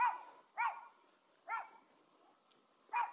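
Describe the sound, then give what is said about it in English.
Small chihuahua barking in a few sharp, high-pitched yaps spaced unevenly apart, each short and bright, with no voices around them. “that is a little dog. It is a little dog. I didn't see him until.”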